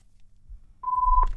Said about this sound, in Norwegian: Da ringer det.